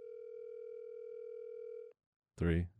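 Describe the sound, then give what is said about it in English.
A telephone ringing on an outgoing call: one long, steady, even ring tone lasting about two seconds stops abruptly. A short silence follows, then a voice briefly speaks. “This is a voicemail call. Yeah, dude. Oh, no. Four rings.”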